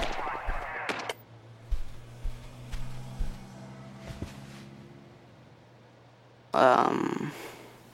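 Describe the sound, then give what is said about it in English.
Gunfire in a war video game set in Iraq: a few faint, sharp shots spaced apart over a low steady hum, ending in a louder noisy burst. “This game's supposed to be in Iraq. Is this what it looked like when you were over there? Sort of. Shoot, I died.”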